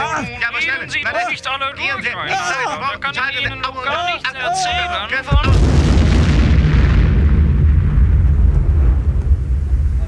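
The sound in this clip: A bomb explosion bursts as a sudden, loud, deep boom that rolls on into a long, roaring rumble. Several seconds of voices talking come before it.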